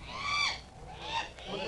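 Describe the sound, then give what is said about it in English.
A seabird, an albatross, cries out as it is shot with a gun: a few harsh, honking calls rise and fall in pitch, fairly loud and close together, with no voices. “I killed the albatross.”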